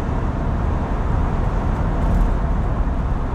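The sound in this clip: Steady road rumble of a car being driven, a continuous, loud, low-heavy roar with no distinct events and no voices.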